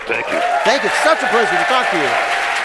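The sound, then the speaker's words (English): Studio audience applause at a comedy quiz show taping, a steady wash of clapping beneath someone talking over it. “Now, the strange noises you hear in the background are what we used to call laughter and applause.”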